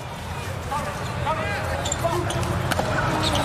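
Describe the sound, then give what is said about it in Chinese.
A sharp single smack of a powerful volleyball jump serve in a Slovenia–Turkey match rises briefly over steady crowd noise and voices. “又换了一个八号布拉奇科的发球，大力跳发，”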